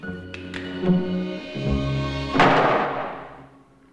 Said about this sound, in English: As Lamar is about to fire, the trapdoor above opens, startling him.